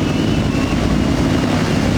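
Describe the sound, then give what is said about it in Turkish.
Steady rumble of helicopters flying in formation during a naval fleet open-day display alongside a drone show: a dense, continuous, loud engine and rotor drone with no clear individual beats, heard alone without voices. “İnsansız hava araçlarıyla yapılan gösteri ve helikopterlerin kol uçuşu büyük beğeni”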